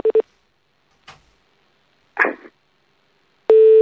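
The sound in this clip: Telephone line tones while calling back: two short beeps, then a couple of faint clicks, then a steady, loud tone that starts and holds.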